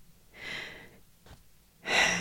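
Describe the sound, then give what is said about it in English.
A person taking a deep breath: two soft, airy breath sounds separated by a brief pause, both faint. “Let's just take a breath. Wait. Do you take a breath with me?”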